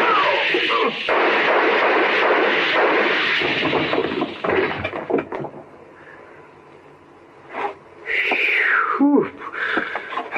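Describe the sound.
Gunshots fired at close range in an old-time radio crime drama: a dense, muffled burst of blasts fills the first few seconds, then quieter scattered noises follow.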